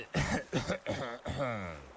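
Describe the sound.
A loud, deliberate cough comes as a few voiced, throaty bursts. The last and longest burst drifts toward a hummed throat-clearing sound.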